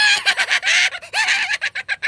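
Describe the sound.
Angry hen clucking in a rapid series of many harsh, squawking bursts, loud and nearly continuous with short gaps between calls.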